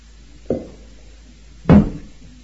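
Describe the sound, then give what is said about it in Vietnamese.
Two knocks stand alone against a quiet background: a lighter tap, then about a second later a louder, fuller thud. “Ví dụ như có một cái tiếng gõ như vậy, tất cả quý vị có nghe hết không?”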